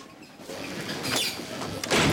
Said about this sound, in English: The doors instantly open to admit a new patient.